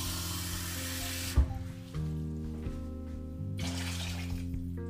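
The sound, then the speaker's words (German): About half a litre of water is poured into a cooking pot, making a rushing, splashing sound at the start. It cuts off and leaves a steady low hum, then a second, shorter burst of splashing follows near the end. “Jetzt mit Wasser aufgießen. Ungefähr ein halber Liter.”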